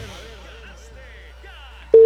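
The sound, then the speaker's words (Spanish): A single steady telephone line tone cuts in loudly near the end as a radio station dials a listener during an on-air prize giveaway. Softer sound comes before it. “Hay llamaditas a esta hora. Estamos llamando a un caballero.”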